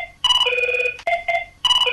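An electronic telephone ring sounds as a call comes in: bright, buzzing harmonic tones repeat in short bursts with brief gaps, loud and alone with no voices.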